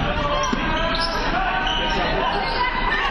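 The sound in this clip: A basketball is dribbled on court during a women's basketball game, the bounces mixed into a steady, dense roar of crowd chatter and hubbub that runs through the whole clip.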